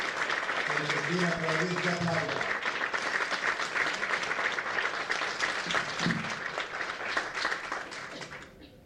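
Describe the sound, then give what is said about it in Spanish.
Sustained applause and clapping from the crowd at a political party event welcoming a candidate for city legislator, with voices briefly heard over it early on, continuing steadily for about nine seconds before tapering off. “ese aplauso.”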